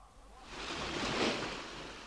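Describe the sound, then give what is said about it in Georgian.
Sea waves: a soft, broad wash of surf swells to a peak and then eases back, faint and alone. “ეხლა ყური დაუგდეთ ზღვის ხმას.”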